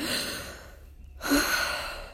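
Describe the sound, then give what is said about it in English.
A deep breath, faint and airy: a soft rush of breath, a brief pause, then a slightly fuller breathy release. “I take a deep breath”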